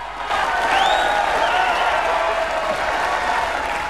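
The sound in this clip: A crowd below a balcony cheers and applauds at a city celebration, a dense, sustained wash of clapping and shouts that holds steady throughout.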